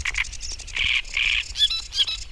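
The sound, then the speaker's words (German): Great reed warbler singing from reeds on the bank of the Havel: loud, harsh chattering phrases of repeated grating notes in uneven bursts over a low background rumble. “singt laut der sprichwörtliche Rohrspatz, ein Drosselrohrsänger.”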